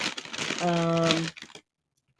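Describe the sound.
Crinkling of a Trader Joe's bag of lentil and chickpea papadum crisps, handled for about a second and a half while someone talks over it, then quiet.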